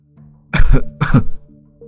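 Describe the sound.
Two harsh, rasping coughs from an old village shaman, loud and close together, with a faint steady drone underneath.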